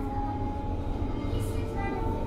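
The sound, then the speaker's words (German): An S-Bahn commuter train at Lichterfelde West station in Berlin-Zehlendorf gives a steady low rumble with a constant whining tone held above it. It stays moderately loud and even throughout, with no clear breaks. “Nächste Station, Lichterfelde West. Die S-Bahn-Station Lichterfelde West in Berlin-Zehlendorf.”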